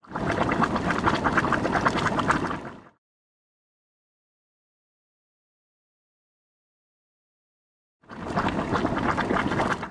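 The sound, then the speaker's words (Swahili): Boiling water bubbles at a hot spring with a dense, churning gurgle, loud and steady in two stretches separated by silence. “Nimesikia maji huchemka kila wakati. Ndiyo, maji moto hayaachi kuchemka. Tukikaribia kidogo, tutasikia maji yakichemka.”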